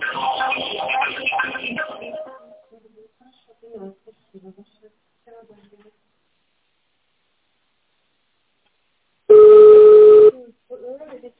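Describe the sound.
A single steady electronic keypad tone lasting about a second sounds in an automated phone menu for a car company. It comes after a recorded voice prompt and a long, nearly silent gap.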